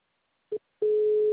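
A telephone call tone: one short beep, a brief pause, then a long, steady, mid-pitched tone held to the end.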